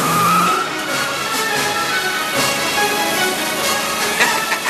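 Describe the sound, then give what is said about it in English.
A car speeds after a Lotus in a chase through a construction area, a dense and continuous roar of engine and road noise, fairly loud and steady throughout. “makes a hard turn onto a flatter street and zooms after the Lotus. Both cars head into a construction area”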